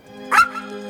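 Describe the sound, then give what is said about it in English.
A single short puppy bark rises briefly over a steady low hum, then the hum continues alone. “The dog's tail is wagging.”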